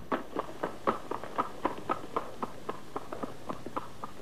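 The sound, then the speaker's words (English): Hooves of a lopsided zebra trotting past along a street make a steady clip-clop of many evenly spaced, sharp beats at a brisk pace, with no voices. “A lopsided zebra trots up behind him and proceeds past him, heading down the street.”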